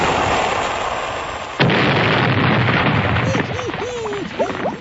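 A cannon-fire sound effect for sinking a ship: a dense rumbling roar broken by one sharp, heavy booming blast, with the rumble sustained afterward and wavering pitched tones near the end.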